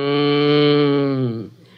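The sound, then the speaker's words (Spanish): A spotted cow gives one long, loud, low moo, holding a steady tone before dropping in pitch and fading out near the end. “La vaca Catalina, con su habitual calma, comenzó a menear su manchado rabo para espantarse las cuatro moscas que la acompañaban siempre. Después se dirigió a sus compañeros con estos mugidos.”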